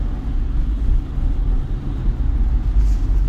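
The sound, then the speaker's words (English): A car on the drive home from work rolls over icy Houston roads during freezing rain, giving a steady, loud low rumble and road drone with no distinct separate events. “I'm driving home, actually, from work”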